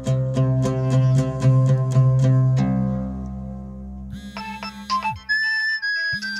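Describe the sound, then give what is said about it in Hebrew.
Mobile phone ringtone: a loud electronic melody that opens with a quick run of repeated bright notes, then moves into sustained, shifting tones, playing alone without voices. “למחרת בבוקר, הטלפון של שמעון צלצל.”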